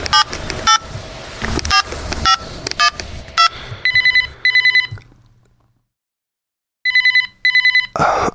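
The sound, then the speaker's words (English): A telephone ringing sound effect: after a stretch of clattering clicks and tones, a bright electronic double ring trills twice, falls silent, then trills twice more, loud and alone. “Have we got a telephone sound effect? I've got lots of sound effects. Hold on. Yeah, it'd be something like this.”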